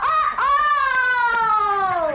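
A rooster crows once in a single long, bright call. There is a brief catch near the start, and then it holds steady before sagging slightly in pitch at the end. It is loud and heard alone.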